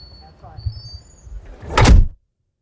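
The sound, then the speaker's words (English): Heavy doors of an anechoic chamber are shut: faint shuffling and low movement, then one loud, broad whooshing thud that cuts off abruptly into dead silence. “Okay, so I'm rolling and you're going to shut the doors and leave me in here for a little while.”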